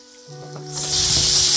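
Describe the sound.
Food sizzles and hisses in an old frying pan on an electric burner, the frying quiet at first and then swelling into a loud, steady sizzle.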